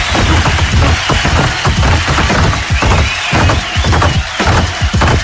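Game-show contestant pounding a table with a fist, a dense, loud flurry of heavy thumps repeating rapidly throughout without pause.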